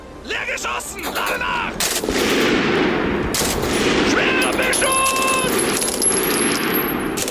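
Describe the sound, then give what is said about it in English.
A German WWII MG 42 machine gun fires at about 1,200 rounds per minute, a loud, dense, continuous rattle of shots that barely lets up for the whole stretch. “Take the MG 42. It fired 1,200 rounds per minute.”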